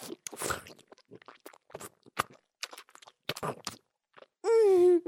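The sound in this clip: Soft, wet chewing of sweet pudding: many small sticky clicks and squelches spread unevenly, quiet overall, ending with a brief hummed voice sound.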